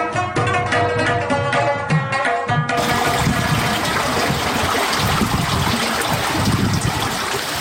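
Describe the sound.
Water flowing through a karez irrigation channel, a loud, steady rushing and gurgling stream that continues evenly throughout.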